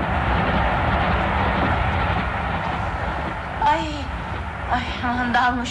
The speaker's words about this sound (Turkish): Dalmışım, o gürültü neydi? Ya bir yük katarı geçti yanımızdan.